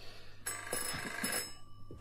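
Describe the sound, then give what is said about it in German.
A telephone bell rings in a shop in one loud, steady burst of about a second. Dull low knocks sound beneath it, and the bell then cuts off into quiet. “Telefon.”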